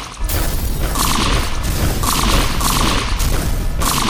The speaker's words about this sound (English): Carried by the robot's mighty steel arms, Dixie and Volker made their way through the base, Dixie blasting away as they went.